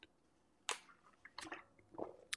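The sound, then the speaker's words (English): A faint sip of coffee: a few soft, wet slurping and swallowing clicks in short bursts, separated by near silence. “Take a drink of coffee here, a little pause.”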